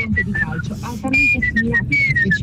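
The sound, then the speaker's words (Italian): A person whistles a song melody in a voice message. Clear, high notes step and glide between pitches in short phrases over a noisy background. “Allora, io ho due tipi di fischio, il primo è... Se devo fischiettare una canzone,”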